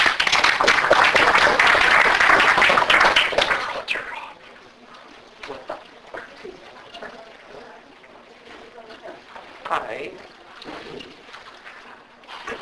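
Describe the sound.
An audience applauds to welcome a speaker at an academic talk. Loud, dense clapping lasts about four seconds, then drops off quickly into quieter scattered sounds.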